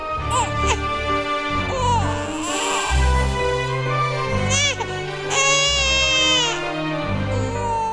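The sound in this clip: A baby crying in loud, repeated, high wavering wails with short breaths between them, continuing throughout.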